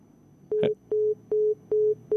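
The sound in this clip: Telephone line tone after a call drops: a steady, evenly spaced series of short mid-pitched beeps, with a brief noisy burst over the first beep and no talking.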